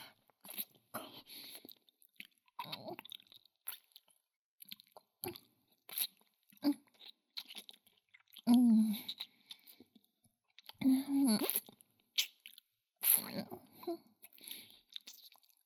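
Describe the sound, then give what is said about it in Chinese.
Crunchy food being chewed with a full mouth: many irregular crisp crunches and wet bites, uneven in loudness, with a few louder crunching bursts among softer chewing. “又塞满我的小嘴了。”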